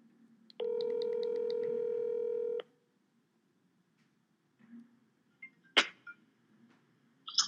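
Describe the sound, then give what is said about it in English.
A steady telephone tone from dialing a guest holds for about two seconds and then stops. After a pause, a few soft clicks and taps follow. “I think we should give our guest a call.”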